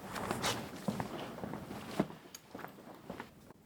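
Quiet footsteps of people walking over to a tactile model of Lund Cathedral, a loose series of soft, irregular steps with faint rustling.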